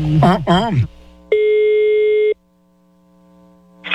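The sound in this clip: Telephone ringback tone on a prank call: one steady, mid-pitched beep lasting about a second after brief talk, then a quiet pause before the next ring begins at the end.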